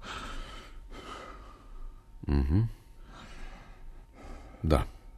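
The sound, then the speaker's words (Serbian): Deep breathing of a patient during a stethoscope examination: a few breaths, two of them long, loud, drawn-in gasps, with softer airy exhalations between. “Izvinite, moram još malo da poslušam, da budem siguran da ne grešim. Dišite duboko.”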